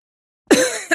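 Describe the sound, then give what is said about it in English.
A man gives a double cough: a longer, rough first burst followed a moment later by a shorter, sharper second one, both fairly loud after silence. “He approached it with a double cough.”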